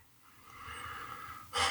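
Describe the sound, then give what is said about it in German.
A person exhales deeply: a long, soft rush of breath that swells slightly, then ends in a sharper, louder puff of air. “Ja, jetzt musst du ausatmen.”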